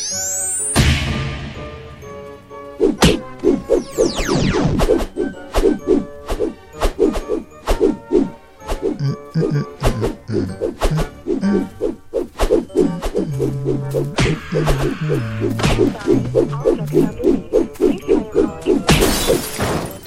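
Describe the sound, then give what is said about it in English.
Punching and smashing impacts in a video game: many rapid, loud thwacks and crashes follow one another almost continuously, with a ringing musical tone behind the hits. “now I can punch them from really far off. Destruction.”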